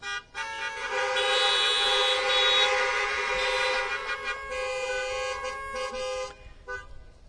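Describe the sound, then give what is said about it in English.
Car horns honked by an audience of veterans and others: many horns blare together as a loud, sustained, overlapping chorus of honks that thins out and fades near the end. “First, if there are any veterans present, let me hear your car horns, veterans. A few. Now let me hear from the rest of you in appreciation of these few.”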